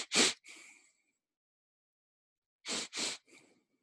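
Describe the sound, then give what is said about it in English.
Breathing exercise of two sharp inhales and one long exhale: quick, forceful intakes of breath followed by a softer, drawn-out breath out, with a long silent pause between rounds and no talk. “a different breathing technique where you take two sharp inhales and one long exhale. So it sounds like this.”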